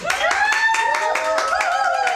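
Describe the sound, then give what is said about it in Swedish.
Rhythmic clapping at a graduation celebration held at a home reception for a new graduate. Steady, even beats repeat about four times a second, and voices rise and fall in pitch over the claps throughout. “Det är fest och firande i bakgrunden. Ja, men så är det. Det är applåder för att Elias Askari”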